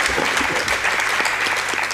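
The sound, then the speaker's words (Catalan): Dense, steady applause from an audience fills the whole two seconds, a loud continuous wash of many hands clapping together with no voices standing out. “Un aplaudiment. Gràcies.”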